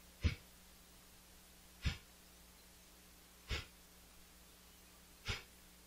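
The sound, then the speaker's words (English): Four forceful nasal exhalations of Bhastrika yoga breathing, each a sharp breathy puff standing alone against quiet, spaced evenly with a short pause between them. “And we do 20 times Bhastrika. It means exhale.”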